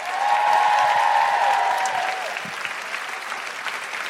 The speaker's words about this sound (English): And a big round of applause... for Michelle Ryan. And Nikki Britton.